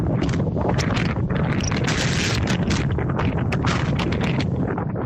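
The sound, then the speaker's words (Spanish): Strong storm wind gusting to about 141 km/h in Viveiro, Galicia, roars as a dense, loud rush of noise with deep rumbling buffets. It stays steady and unbroken throughout. “Lo están escuchando, el viento superó la pasada madrugada los 141 kilómetros por hora en Penedo do Galo, en Viveiro.”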